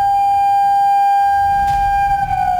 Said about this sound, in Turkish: İl genelindeki sirenler aynı anda acil durum tonunda çaldı.